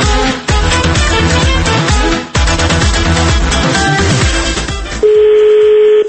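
A telephone call being placed to a venue: busy music plays for several seconds, then cuts to a steady, loud, mid-pitched call tone that holds to the end.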